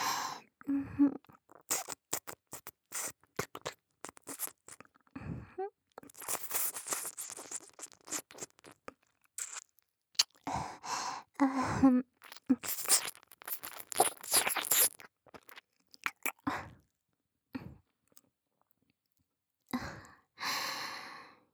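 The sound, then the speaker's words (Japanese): Wet mouth sounds of an ear being licked: many short smacking clicks and slurps between breathy sighs, with a few brief pauses. “君の耳、美味しいわね。ずっと舐めてたいくらいだけど。”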